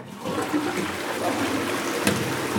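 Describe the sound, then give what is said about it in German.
Water flushing or rinsing: a steady, hissing rush of running water that continues unbroken at moderate loudness, with no talk. “Dann kann man eigentlich spülen.”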